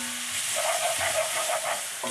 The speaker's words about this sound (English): So I'm going to dump my onions and